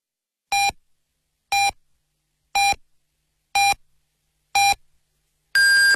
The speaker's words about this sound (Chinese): 北京时间7点整，中国移动光宽带为您准确报时。